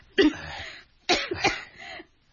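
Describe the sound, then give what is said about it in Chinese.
Coughing from someone who has been coughing often lately: one harsh, throaty burst, then after a short pause a tight cluster of a few more coughs, fairly loud and rough, with no other sound between them. “你怎么近来你时时咳嗽，是不是很辛苦啊？”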